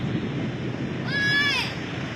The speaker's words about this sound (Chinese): 哎呀，山水下来了。 哎，小兰，快往坡上跑，上老山头。